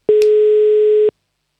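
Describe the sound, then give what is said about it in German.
A telephone ringing tone after a number is dialed for a phone call with a child: one clean, loud, steady low beep lasting about a second, with a tiny click near its start, then silence. “Die Nummer wählen wir. Und dann hoffen wir, dass jemand abhebt.”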